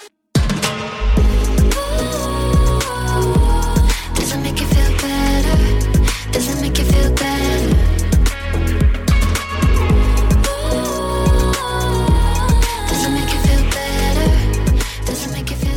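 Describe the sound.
Electropop music plays, a 2021 single by an artist from the central coast of New South Wales. A steady beat, layered synths and deep bass run loud and continuous with no talk.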